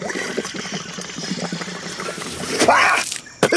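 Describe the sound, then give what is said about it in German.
Petrol siphoned through a hose into a canister gives a steady trickling, gurgling flow of liquid, with a brighter, louder splashing surge near the end before it cuts off. “Aber jetzt müsste es eigentlich durch den Schlauch in unseren Kanister fließen. Es klappt.”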